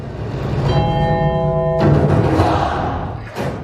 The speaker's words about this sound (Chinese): 所以我这里面你仔细听会有一个钟声，